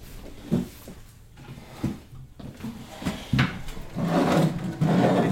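A pantry cupboard door being opened in a wooden house: a few soft wooden bumps and rubbing noises, then a longer, louder rustling scrape toward the end.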